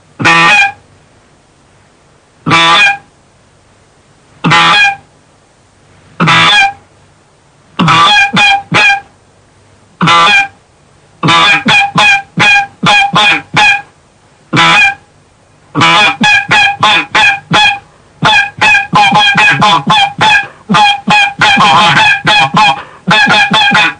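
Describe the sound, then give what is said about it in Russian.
Geese honk loudly as a flock approaches, in a hunting setting with decoys. Sharp, repeated honks start sparse and well spaced, then grow into dense, rapid bursts of overlapping calls. “но вот это вот сопровождение звуковое приближающейся стаи мы сейчас и послушаем.”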